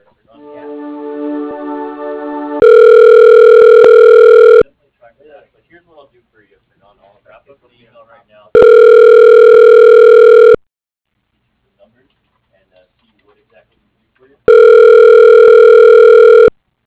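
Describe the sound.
Telephone line ringing while a call transfers to voicemail: three long, loud, steady electronic ring tones of about two seconds each, separated by longer quiet gaps. A voice speaks briefly before the first ring.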